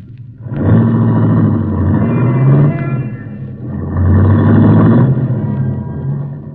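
Engine of a long yellow convertible rumbling steadily, a loud, dense, low drone that swells twice, with no voices over it.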